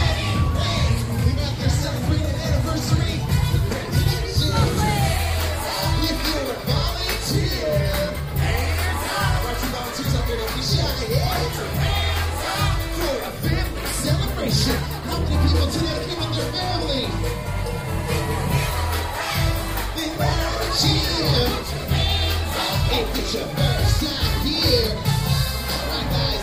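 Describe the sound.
A large crowd cheers and shouts without a break, a dense, loud and steady wall of mixed voices and whoops that runs for about half a minute.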